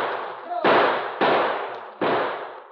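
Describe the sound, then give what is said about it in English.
Gunshots ring out from behind boulders as a radio drama sound effect: three loud, sharp cracks spaced irregularly, each trailing off in a long fading rumble. “As the shots from behind the boulders came less and less frequently, and finally ceased altogether, Tully's men prepared to close in for the kill.”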